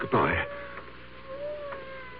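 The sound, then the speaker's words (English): A cat meows once inside a room, a short, wavering cry at the start, followed by a faint, steady sustained tone. “You know, it's funny. I hear a cat. He must be right in this room, but I don't see him.”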